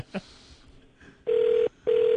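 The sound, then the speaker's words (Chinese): Ringing tone on an outgoing telephone call: two long, steady mid-pitched tone bursts separated by a short gap, with the second cut off at the end, following a faint click. “唔知佢会唔会唔听电话？唔知瞓醒未咧？”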